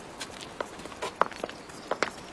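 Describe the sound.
Footsteps of people walking together at an unhurried pace: a series of faint, soft taps spaced irregularly, with no talk over them.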